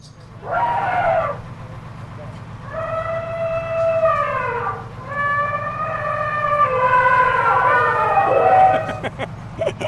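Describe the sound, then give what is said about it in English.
Signature horn of a mammoth-shaped art car at Burning Man, blaring as about four loud, harmonic, whistle-like blasts, several sliding downward in pitch, over a continuous low engine rumble. “That's a sound people now recognize because of so many years that Mammoth's been here. They actually hear it more than they see it”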